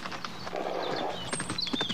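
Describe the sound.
A horse ridden at speed down a town street by a young rider bent low in the saddle: rapid, clattering hoofbeats in a quick, uneven rhythm, loud throughout.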